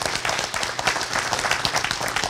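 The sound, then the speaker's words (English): Audience applause during a talk about a museum: a busy mix of many overlapping hand claps with clear individual strikes, fairly loud and steady across the short stretch, no voices. “Again, by another round of applause, who checked out the museum this weekend?”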